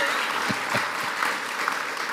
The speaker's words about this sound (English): You can applaud them if you can.